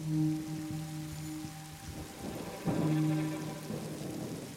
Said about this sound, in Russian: Снаружи льет дождь.